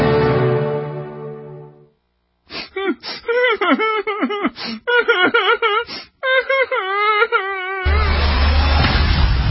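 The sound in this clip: A whining, moaning voice bends up and down in pitch over several wavering bursts. A fading sustained tone comes before it, and a rough noisy wash follows at the end.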